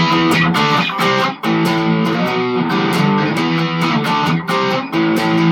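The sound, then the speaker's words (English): A guitar plays a big chord riff in a lesson, with loud, sustained, distorted-sounding chords struck in a steady rhythm with brief dips between hits. It is played alone, with no talking. “We've got you playing the riff on your own, like the big riff with the chords.”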